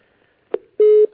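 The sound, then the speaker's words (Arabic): After a dropped call, the telephone line gives a brief electronic blip and then one steady, mid-pitched tone lasting about a quarter second. “نعم انقطع الاتصال.”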